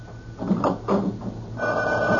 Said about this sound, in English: Now cut off the phone by the bed. Quick! All right, all right. Will it never stop?